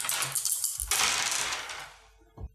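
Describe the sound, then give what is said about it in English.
Dice rattle across a table during a tabletop role-playing game: a bright burst of clattering settles and fades, followed by one last small knock. “My bad, I keep rolling dice.”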